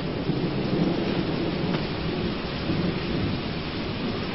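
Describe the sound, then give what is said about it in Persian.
Steady rain falls on a rainy night as a continuous, even hiss with a low rumbling undertone. It holds at a constant level throughout, with no voices. “شب بارانی زیباییه، آدم یاد لندن میندازه”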